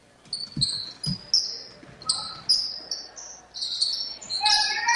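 Basketball dribbled during a North Posey girls' game: two dull bounces early on, mixed with bursts of high-pitched squeaking and chirping.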